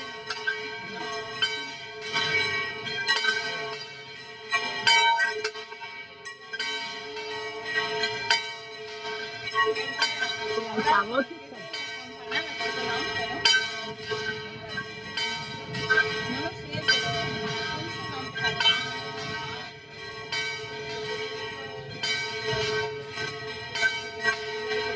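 A church bell strikes the eleven o'clock hour with many resonant, metallic strokes in a slow, even rhythm. Each stroke's long ringing sustain overlaps the next.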